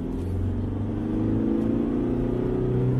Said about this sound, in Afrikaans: Ek het die goedkoopste Everest gery, die XLS 6-spoed handrat met agterwielaandrywing.